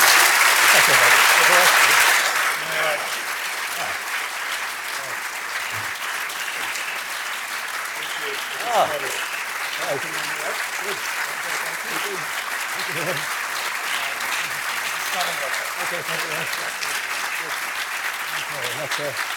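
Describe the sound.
Sustained audience applause thanks the speaker after the first Derek Denton lecture, loudest in the opening seconds, then settling into steady clapping that continues for nearly twenty seconds.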